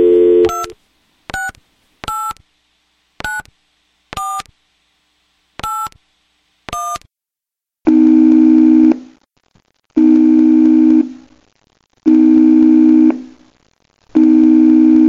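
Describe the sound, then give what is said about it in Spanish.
A telephone call is dialed from a bedside table: a brief opening tone, then seven crisp keypad beeps spaced irregularly, followed by four long buzzing ringing tones separated by pauses, the last one cut off. “Luego se dirige a la mesilla de noche y hace una llamada telefónica.”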